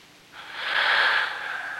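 A male yawn: a long, breathy, airy exhalation that swells from quiet to loud, peaks, and then eases off slightly without fading out, with no talking.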